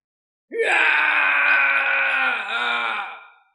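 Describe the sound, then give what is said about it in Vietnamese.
A loud, long wailing cry rises abruptly and holds at a steady, piercing pitch for about three seconds. It dips briefly near the end, then fades away alone in silence. “Trong cảnh vắng lặng này đột nhiên truyền đến tiếng gào khóc.”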